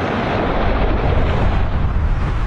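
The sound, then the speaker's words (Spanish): Naval bombardment from Allied ships off Utah Beach on D-Day, heard as a loud, continuous deep rumbling roar without separate distinct blasts. “Frente a la playa de Utah, los barcos aliados ya están atacando las posiciones alemanas del interior.”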